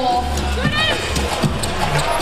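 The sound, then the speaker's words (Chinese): Basketball dribbling in a video game: a few dull, low bounces thump under a steady wash of crowd noise, spaced irregularly rather than in a tight rhythm. “我这运球太漂亮，反胯下变向压低身位一步突”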